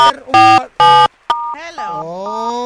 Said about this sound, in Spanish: ¡Deja de estar marcando! ¡Saca el dedo de ahí!